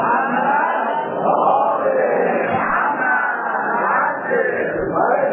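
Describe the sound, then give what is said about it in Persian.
A crowd at a religious gathering recites salawat together in unison. Many voices chant loudly and steadily, filling the whole stretch with little pause. “اگر خسته نشدید زحمت نیست براتون یه صلوات مردانه بفرستید.”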